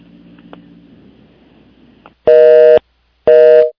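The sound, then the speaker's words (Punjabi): Telephone busy tone after a dropped call: two long, steady, loud electronic beeps with a gap between them, following a stretch of faint low line hiss. “ਹਾਂਜੀ ਲੱਗਦਾ ਉਹਨਾਂ ਦੀ ਕਾਲ drop ਹੋਈ ਹੈ।”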